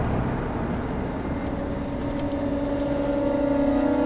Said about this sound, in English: The soldiers turn away from him and watch the commander's SUV drive up.